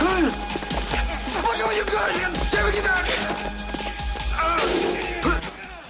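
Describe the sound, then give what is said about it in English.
A prisoner in Tango and Cash falls back over a balcony and hits the floor below, making heavy crashing thuds within a busy, noisy fight scene where voices can be heard. “Tango kicks out and a prisoner falls back over the balcony, hitting the floor below.”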